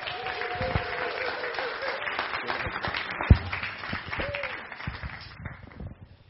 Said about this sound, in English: put your hands together, stand up, whatever you want to do, and give Rebecca a warm billericay welcome.